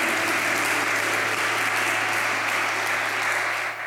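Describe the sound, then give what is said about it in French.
Church audience applauding for the Lord in a French-speaking worship service. Dense, even clapping from many hands holds at a steady, loud level throughout, easing slightly at the very end. “Est-ce qu'on peut acclamer encore très fort pour le Seigneur?”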